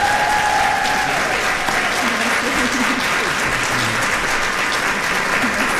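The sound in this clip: A crowd gives loud, sustained applause as President Donald J. Trump is welcomed to the stage, a dense roar of clapping that stays at full strength the whole time, with faint crowd noise blended in.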